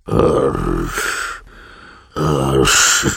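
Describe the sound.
A voice imitates snoring with two long, rasping, throaty snorts, separated by a short, quieter breath.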